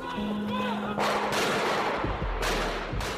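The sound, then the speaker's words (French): Kalashnikov gunfire in a reconstruction of the Charlie Hebdo newsroom attack, a few sharp, loud bursts and heavy booms over a low sustained drone. “En cinq minutes, ils abattent froidement 10 personnes. Charb est criblé de balles.”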